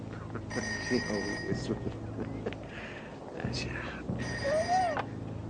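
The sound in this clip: A telephone rings in a few bursts of electronic, trilling tones, each lasting about a second, over a steady low background hum.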